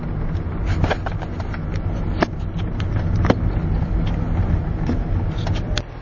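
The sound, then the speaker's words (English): Steady interior road noise inside a small, slightly noisy car while driving: a constant low rumble and hiss, with faint ticks and bumps scattered throughout. “Now, I'm doing this podcast while driving, so you'll probably hear some noise. It's in a slightly noisier, smaller car.”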